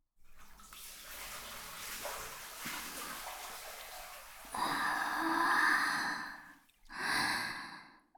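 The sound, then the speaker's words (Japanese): Water sloshes faintly as a person lowers into a hot bath, followed by two long, breathy sighs of relief. “一緒にお湯に浸かりますよ。せーの。”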